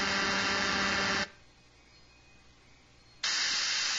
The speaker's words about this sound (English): Two 200 hertz impulse wave.